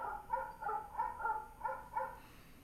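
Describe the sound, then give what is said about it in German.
Dogs barking from loudspeakers hidden in hedges: a rapid, even run of short, tonal barks with a slightly thin, reproduced quality, sounding alone over a low background. “Ich höre die Hunde bellen. Die Hunde sind nicht echt. Er hat Lautsprecher in den Hecken versteckt.”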